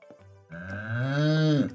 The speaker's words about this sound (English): Oh, will you look at all of those cows?